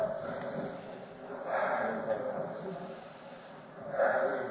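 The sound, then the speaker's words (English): A church audience breathing deeply together, producing long, airy rushes of breath that swell into two broad waves, the second coming near the end. “let's all stand up and breathe deep. That's all. I'm afraid the height is getting to us. Breathe real deep.”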